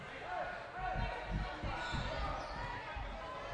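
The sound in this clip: A basketball is dribbled on the court during an Indiana girls' high school game between Marquette Catholic and Elkhart Memorial. Steady low thuds repeat under fast play-by-play commentary and faint crowd noise.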